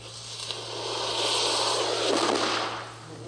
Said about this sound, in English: Rather than using a mechanical piston to maintain volume, I segmented my box cutter with steel plates, hoping to get a more uniform burn, but got some unexpected results. Can thermite make pressure pulses and or dust puffs?